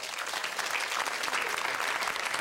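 A live audience applauds in a dense, continuous burst of many hands clapping, holding at a steady, loud level for the full two and a half seconds without talk.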